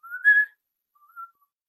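A person whistles a high, bright tune in two short phrases: a louder opening run of notes climbing in pitch, then after a pause a quieter, shorter second phrase, with no talking.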